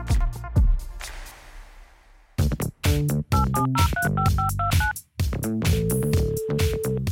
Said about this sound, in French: Je vais donc lui passer un petit coup de fil.